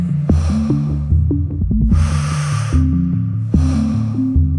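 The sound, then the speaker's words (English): Deep breathing in and out during a breathing exercise: long, airy rushes of breath, a fainter one first and then two strong, drawn-out ones, over a low, sustained tonal drone with soft plucked accents. “Inhale power. Exhale fear.”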